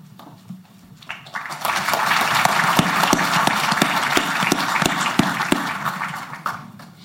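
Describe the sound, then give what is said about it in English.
Clapping at a press conference welcoming Aaron Rodgers to the New York Jets, rising from a few claps into full, steady applause with sharp individual hand claps standing out, then thinning near the end. “I'd just like to have a round of applause right there.”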